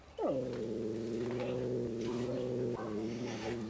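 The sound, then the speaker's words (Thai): A cat's drawn-out threatening growl-yowl as a resident group confronts a newcomer: a low, harmonic cry that drops in pitch at the onset, holds steady, then is renewed near the end, fairly faint and without voices. “ครับก็มีการขู่กันนะครับทั้งตัวที่อยู่เก่าอยู่แล้วเนี่ยครับก็จะมีการแสดงความเป็นเจ้าของพื้นที่”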